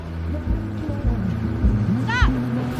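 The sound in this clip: A bus approaches along a road at night with a low, steady engine rumble and droning hum. The rumble swells slightly and a brief whining tone slides in near the end.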